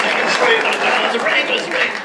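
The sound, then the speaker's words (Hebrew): Audience applause for an elderly man being welcomed at an event. The clapping forms a hiss of even, dense noise, and a voice talks over it throughout. “איפה כפיים?”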